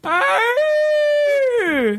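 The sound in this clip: A human voice imitates an elk call: a short lower note rises quickly into a long, sustained, high whistling tone that then slides down at the end, loud and heard alone.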